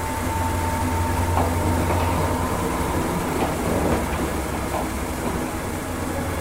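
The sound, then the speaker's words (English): A train passes with a steady rumble and rattling rail noise that holds at an even level throughout, with no voices. “some trains go by a lot of times.”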